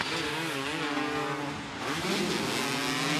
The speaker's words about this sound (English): He's racing and he's going for the win.